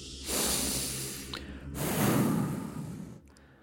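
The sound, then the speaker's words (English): Two long, deep breaths taken before a candlelit ritual, each a soft, airy whoosh of about a second and a half, one straight after the other with no talk. “A few breaths and we are about to summon the dead.”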